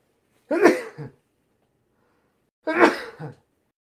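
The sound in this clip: Two sneezes from a person with allergies, each a loud, breathy burst with a shorter tail, separated by silence.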